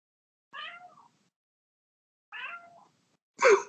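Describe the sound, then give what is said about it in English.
A pet cat meows three times, two similar moderate meows separated by a long pause, then a louder, sharper third meow, with no voices over them. “We're back with some cat or dog noises. I'm sorry, that's my cat.”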